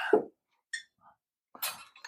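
Glass clinking around a pour of 59.75% ABV rye whiskey: a few short, bright chinks and knocks, separated by brief silences.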